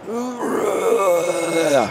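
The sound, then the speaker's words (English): A human voice imitates a bull's growling groan, the bull recalled from a hunting trip in Oregon: one sustained, rough, low moan lasting about two seconds, its pitch wavering slightly throughout. “It was just like a growl. Groan.”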